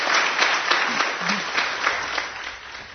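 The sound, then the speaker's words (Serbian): Applause at a commemoration in Radio Belgrade's Stone Hall: dense, even clapping from a crowd that holds steady and eases slightly near the end. “Na komemorativnom skupu u Kamenoj sali Radio Beograda ispraćen je aplauzom kako i dolikuje najvećim umetnicima.”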